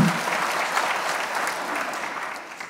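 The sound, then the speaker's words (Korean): Audience applause at a political town-hall gathering in a city hall: a dense, steady wash of clapping that holds an even loudness throughout and thins only slightly near the end. “예, 박수 좀 보내주시기 바랍니다.”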